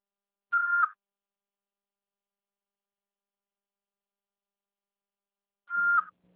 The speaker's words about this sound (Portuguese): Após o sinal, fale o seu nome e deixe o seu recado.